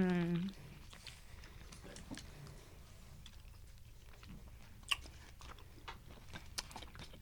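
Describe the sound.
Chewing and biting into salmon: faint, moist, irregular mouth sounds with a few sharper clicks, quiet throughout.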